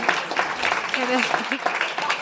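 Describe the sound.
An audience claps in answer to a show-of-hands question about humour in old age. The steady, light clapping runs throughout, with a voice speaking over it.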